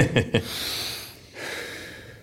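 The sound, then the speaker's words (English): A deep breath taken to steady oneself during strenuous exercise: two short sharp sniffs, then a long hissing inhale, a brief pause and a second drawn-out breath. “All right, relax. I'm now going to take a deep breath and not pass out.”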